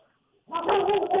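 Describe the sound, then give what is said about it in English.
A dog bark or short bark-like burst, fairly faint. It starts after a brief quiet stretch and carries on to the end. “I'm going to apologize for my dog's barking.”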